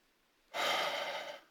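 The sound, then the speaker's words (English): One big, deep breath during a morning breathing exercise: a single loud, breathy rush of air lasting just under a second, heard alone, then fading away. “what we're doing this morning is a few big, deep breaths”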